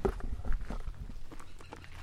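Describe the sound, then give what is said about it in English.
Footsteps walk among grapevines in a vineyard, a series of soft, irregular thuds and light crunches that stay faint throughout. “So I'm just walking through some of the grapevines.”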